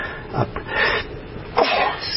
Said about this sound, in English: Excuse me, I've got a sneeze here.